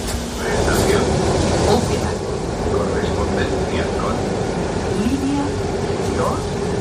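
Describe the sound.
A metro train arriving at a station produces a steady, continuous rumble with rattling tones, and people talk over it throughout.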